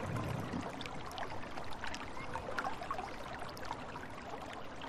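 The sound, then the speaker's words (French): Splashing water of a town fountain: a continuous, even wash of trickling and falling water that holds a steady level throughout, with no voices. “Nous sommes à côté de la fontaine. Que nous raconte la sensation de l'eau sur notre peau ?”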